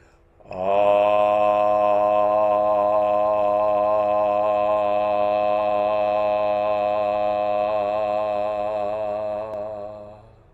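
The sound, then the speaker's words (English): Sustained vocal toning: a single held open "ah" tone sung steadily for about nine seconds, rich in harmonics with slight wavering, loud and alone with no talk, fading out at the end. “But eventually, toning is meant to sound something like this.”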